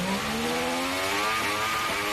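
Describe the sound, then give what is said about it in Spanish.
Formula 1 V6 turbo hybrid engine running hard, giving a loud, continuous buzzing engine note with a high, whining edge that holds nearly steady and shifts slightly in pitch, with no talk over it. “Y ahora mismo lo que tenemos es un V6, turbo híbrido, que suena así.”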